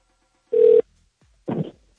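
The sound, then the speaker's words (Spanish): A telephone ringing on a call line: two short, buzzy rings separated by a pause of nearly a second, the first steadier and louder than the second, with no talk over them. “A ver, está sonando.”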